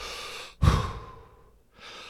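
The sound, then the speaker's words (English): A single deep breath during a rapid deep-breathing exercise: a sudden forceful rush of air that gradually fades, then a short silence before the next breath begins. “the Wim Hof method, in essence, you do 30 to 35 deep inhales and then exhale.”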